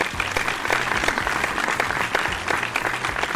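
A live audience applauds to welcome a guest, a professional engineer: full, continuous clapping that stays loud and even throughout with no gaps.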